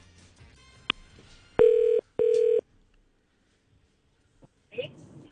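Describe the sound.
Telephone tones sound as a call is placed to congratulate a chart act: a faint click, then two steady, equal-length mid-pitched tones separated by a short gap, with a brief soft noise near the end.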